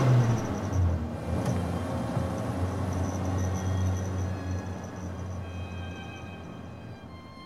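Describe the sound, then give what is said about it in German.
A car driving, with a steady low engine rumble and road noise that hold evenly throughout and ease off slightly toward the end. No voices are heard. “Wir fahren zum Haus der Oskarovna.”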